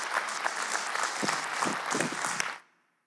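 Audience applause at a church gathering welcoming a man up to share his testimony: a dense, even wash of clapping that stops sharply, leaving a brief silence at the end.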